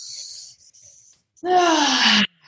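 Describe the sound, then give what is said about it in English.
A hissing breath is drawn in through the nose during a guided affirmation breathing exercise. After a pause comes a loud, voiced sigh that falls in pitch. “And 3 deep breaths in through the nose.”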